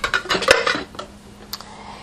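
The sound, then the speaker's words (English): A ceramic crock is set down into the base of a slow cooker, making a cluster of hard clinks and clattering knocks, then a couple of fainter taps before quiet. “Put the lid on the container, the crock. Pick up the crock, take it over, put it into the base of the crock pot.”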